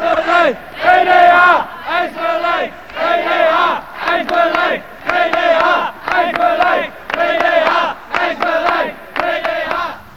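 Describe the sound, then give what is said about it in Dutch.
Over a hundred municipal rehousing-service civil servants march to city hall chanting a short protest slogan in unison, loud rhythmic shouted bursts repeated many times with brief pauses between. “Ja, onder deze leuze, GDH eist beleid, trokken vanmiddag ruim 100 ambtenaren van de gemeentelijke dienst herhuisvesting naar het stadhuis om daar een petitie aan te bieden aan wethouder Wolfensperger.”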